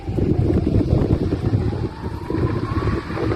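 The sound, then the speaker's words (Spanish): Strong wind blows in Andalusia, a loud, gusty low roar buffeting the microphone, with a faint rising tonal whine in the second half. “Ahí se puede apreciar la fuerza con la que soplaba el viento en otros puntos de Andalucía, en Moguer, en Huelva y en Aznalcázar, en Sevilla.”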